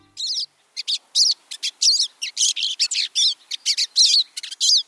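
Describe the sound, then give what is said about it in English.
Birdsong of many bright, high chirps and short trilled phrases, repeated in quick succession with brief gaps between them. The calls are clear and loud, with no other sounds. “Many of the bird sounds you hear on Bird Note come from the Cornell Laboratory of Ornithology.”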